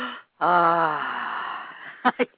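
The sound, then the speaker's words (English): A person acts out taking a deep breath of fresh air: a brief breathy intake, then a long, loud voiced sigh that slowly fades, followed by two short breathy bursts. “would you like go into the rainforest and go, you know, like take a deep breath and like, you know, go,”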